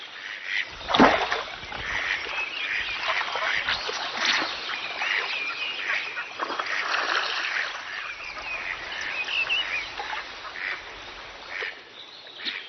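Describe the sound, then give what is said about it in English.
Mandarin ducks courting in a broad-leaved forest in spring: many short, bright calls and quacks overlap through the whole clip. No voices are heard. “It's spring in the great broad-leaved forests of Eastern Europe and Asiatic Russia. The mandarin ducks are courting.”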